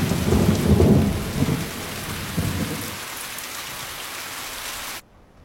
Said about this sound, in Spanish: Por la noche llueve intensamente.